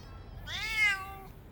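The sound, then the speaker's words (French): A neighbours' cat gives a single drawn-out meow, rising and then falling in pitch, fairly soft and alone. “Oh, le chat des voisins! Tu vas où comme ça, le chat?”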